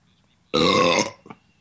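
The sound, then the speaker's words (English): A single loud burp erupts after a drink, a deep, throaty belch lasting about half a second, then fading into a brief, softer trailing sound, with no talk over it. “Did you just apologize for drinking and burping on a show called Politically Drunk Smart People Talking About?”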